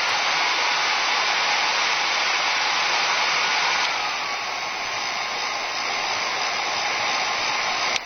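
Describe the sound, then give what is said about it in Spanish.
A hair dryer blowing continuously, a loud, steady rushing whoosh of air with a constant motor whine that eases slightly partway through and carries on alone. “Y les cuento que el sonido misterioso corresponde a un secador de pelo.”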